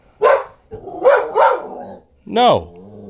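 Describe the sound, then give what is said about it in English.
A dog barks four times, loud and separated by short pauses; the second and third barks come close together, and the last one is drawn out with a rough, descending tail. “if you'd like, by the way, to follow the dog you hear barking”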